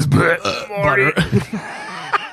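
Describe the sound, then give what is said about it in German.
A burp breaks out in the middle of someone's sentence, a short, croaky eructation folded into ongoing talk and followed by more speech. “Ich fange schon wieder an, im Satz zu rülpsen, ey.”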